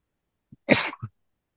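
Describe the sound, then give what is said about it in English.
A single sneeze: a brief sharp intake, then a loud breathy burst followed by a small trailing catch. It stands alone against silence. “excuse me. Bless you.”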